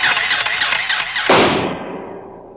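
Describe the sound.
A toy atomic blaster ray gun, junior space cadet size, fires: a warbling electronic whine leads into a sudden bright burst that rings out and fades away.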